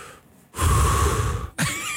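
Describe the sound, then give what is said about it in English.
A deep breath drawn in sharply and loudly, a breathy rush lasting about a second, then cut off as another sound begins abruptly. “Just take a deep breath.”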